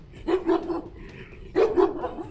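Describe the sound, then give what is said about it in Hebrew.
Two dogs barking as they leap forward: two short bursts of a few sharp, loud barks each, separated by a brief pause. “לפתע, שני כלבים זינקו לעברה”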